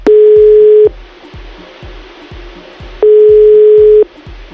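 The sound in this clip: A telephone ringback tone plays while a caller waits for an answer: two loud, steady, mid-pitched tones, each just under a second long, separated by a pause of about two seconds, with no voices.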